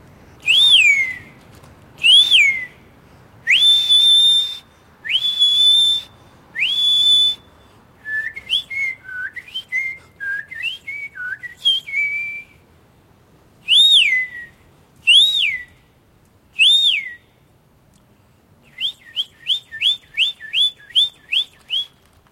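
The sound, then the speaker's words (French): A person whistles bird imitations: five long, clear warbling phrases, then a run of quick twittering notes, more sweeping calls, and a final rapid string of short chirps, loud, high-pitched and alone. “Je sais bien siffler comme les oiseaux.”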